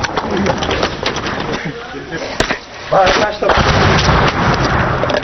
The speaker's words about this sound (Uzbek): Bu 14-may kungi yozib olingan ovoz, o'q ovozlari edi